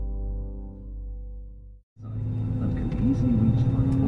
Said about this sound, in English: Captain Jakob Veldhausen van Zanten opens up the throttles on his Boeing 747.